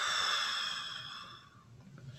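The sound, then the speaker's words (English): A deep breath, held and then exhaled through the mouth: a soft, breathy rush of air that gradually fades over about a second and a half, quiet throughout. “One more deep inhale in through your nose. Hold it in your chest and exhale through the mouth.”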